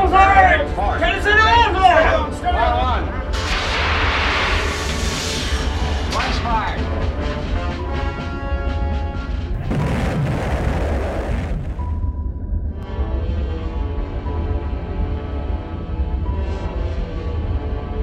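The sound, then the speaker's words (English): A torpedo fired from a submarine and a warship exploding as it sinks: heavy booming blasts and broad rumbling bursts, with raised voices shouting over the opening and a long, sustained rumbling tail afterward. “Torpedo One, fire!”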